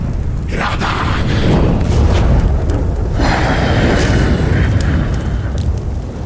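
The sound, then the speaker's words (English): A fantasy fire elemental in combat roars with a loud, continuous blazing rumble, broken by booming bursts and crackling whooshes that swell and ebb throughout. “Even a fire elemental in combat.”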